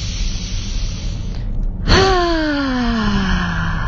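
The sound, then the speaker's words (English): During a guided breathing exercise with eyes closed, a single audible out-breath carries a voiced sound. Partway through, a sustained vocal tone starts and slides steadily lower in pitch over a constant background hiss. “start with your first breath coming in through your nose, out through your mouth, your eyes closed. And on the out breath, please make a sound, taking that first breath.”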